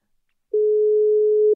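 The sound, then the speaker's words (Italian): An outgoing Telegram call ringing tone sounds as a single steady electronic beep lasting about one second. It follows half a second of silence and cuts off cleanly. “Ti stiamo chiamando su Telegram, caro Andrea.”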